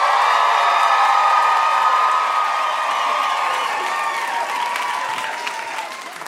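Audience applause and cheering welcome a guest onto a show, a loud, dense wash of clapping that holds steady and then slowly fades.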